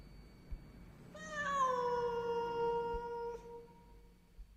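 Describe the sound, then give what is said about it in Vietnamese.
A cat meows plaintively while sitting in a yard and looking upward. One faint, drawn-out meow, its pitch sliding gently downward, rises over a quiet background. “Ấy thế mà con mèo vẫn ngồi ở sân, ngửa mặt, đôi mắt xanh lè lè nhìn lên mà kêu lên mấy tiếng ai oán.”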